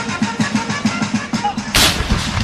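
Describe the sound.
Celebratory cannon salute fired to welcome Martha Washington ashore in New York in 1789, heard as a rapid run of booming thuds capped by one louder, sharper blast.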